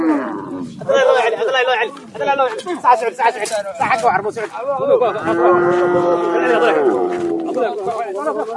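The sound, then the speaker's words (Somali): Cattle low repeatedly at a busy livestock market in Hiiraan, Somalia, where goats, cattle and camels are traded. Many overlapping calls rise over a constant crowd din with voices mixed in throughout. “Sawaxanka iyo shanqarta aad maqlaysaan waa saylada lagu kala iibsado xoolaha sida ariga, lo'da iyo geela ee degmada Buuqa Qable ee wilaayada Hiiraan.”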